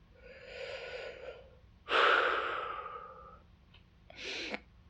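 Deep, slow breathing: a long inhale, then a heavier, longer exhale, then a shorter breath. Soft, airy and alone, with no speech.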